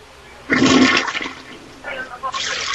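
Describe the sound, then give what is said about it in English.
A toilet that is flushing on its own gives a loud rush of water that starts abruptly, pours strongly for about a second and then trails off, before a second, softer surge of running water picks up. “The toilet's flushing on its own now.”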